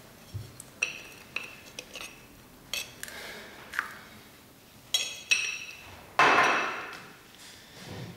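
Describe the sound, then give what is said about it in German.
About 50 grams of samples are put into a laboratory crucible, making many sharp metallic clinks and taps at irregular intervals, then a longer, louder scraping rattle near the end. “Füllen Sie 50 Gramm der Proben in den Tiegel.”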